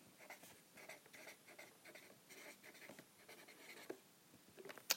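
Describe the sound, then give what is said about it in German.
A pen writes on paper, a faint run of many short, scratchy strokes in an irregular rhythm, with a few sharper taps toward the end. “Schreibe ich jetzt einfach mal hier hin.”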